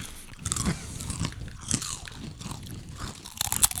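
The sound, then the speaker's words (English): Potato chips crunch and get chewed close up, with many crisp, irregular bites and munches of varying loudness and no talking over them. “I think we'll just sit here and finish eating some chips.”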